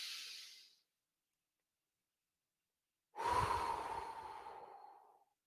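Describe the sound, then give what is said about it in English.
Slow box-breathing exercise: a soft, hissing breath fades out, a few seconds of silence for the hold, then a longer, fuller breath with a low, breathy rumble that slowly trails off. “Nice little box breath. Four on the way up, two hold at the top, four on the way down, two hold at the bottom.”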